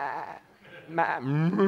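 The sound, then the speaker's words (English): A cow sound effect that sounds like a very sick cow: a hoarse, wavering, bleat-like moo in two strained bursts, the second louder and longer. “sorry, that was a cow, if you didn't know. It's like a very sick cow, but you understand.”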